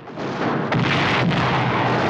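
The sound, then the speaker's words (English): Tank cannon fire from German tanks shelling Allied troops on a beach: a few heavy booming blasts rise out of a continuous, loud roar of battle noise. “German tanks fire at the Allies on the beach.”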